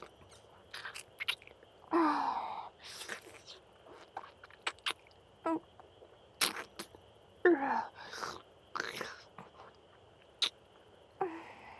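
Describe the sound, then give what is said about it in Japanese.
Close-up chewing of food, with many wet, sticky mouth smacks and clicks in irregular bursts and short quiet gaps between them, faint overall. “ぬるぬるにするために、このままいただきます。”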